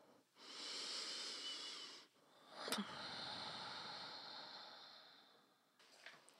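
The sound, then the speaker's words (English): A slow, deep human breath: a long, airy inhale of about two seconds, then a steadier, longer exhale, both soft and breathy with no speech. “Let's take another deep breath.”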